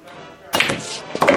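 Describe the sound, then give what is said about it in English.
The eight ball is shot into a corner pocket in billiards: a sudden wooden knock about halfway in, a rattling thud after it, and a second hit near the end. “Eight ball, corner pocket. Lots of luck. Like I said, eight ball in the corner.”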